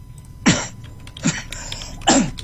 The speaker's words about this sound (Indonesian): Batuk dulu.